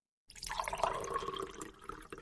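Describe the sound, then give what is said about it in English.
Coffee is poured out in a continuous faint splashing stream of liquid that begins after a brief silence and runs for about two seconds. “Here, pour a little coffee out for Proxmox.”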